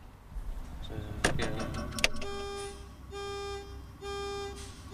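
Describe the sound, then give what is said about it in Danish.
A truck's turn-signal indicator clicks inside the cab, a few crisp ticks at the start, then sustained tonal radio music that largely covers the clicking. “Det er ikke hornet, er det? Det er et blinklys.”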